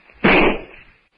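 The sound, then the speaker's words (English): A single rifle shot fired in a jungle drama cracks out as one sharp, loud blast that quickly fades away, with no voices over it. “The shot passes within an inch of Tarzan's head.”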